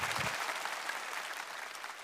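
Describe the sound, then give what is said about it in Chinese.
At a singing competition, the audience applauds a contestant with steady, fairly faint clapping from many hands. The dense texture stays even throughout, with no talk. “再次掌声送给吉萨沙玛”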